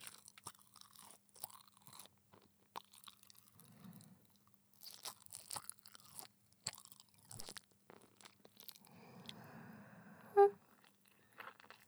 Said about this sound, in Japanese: 私がお粥を噛み砕いて、口移しいたします。